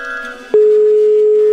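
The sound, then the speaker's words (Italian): Ringing tone on a telephone line as a prank call is placed, heard as one loud, steady, level-pitched tone lasting about a second, cut off cleanly at the end. “Ora verrà chiamata la nuova vittima di Wender, Arnaldo. Sentiamo se risponde.”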